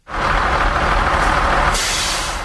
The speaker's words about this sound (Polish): Autosan H9, rok produkcji 1990.